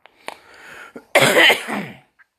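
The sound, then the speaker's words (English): A dry cough from someone with severe allergies: a few faint throat clicks lead into one harsh, loud cough burst that tails off raggedly, with no talk. “hopefully that'll help just get rid of this dry cough I have”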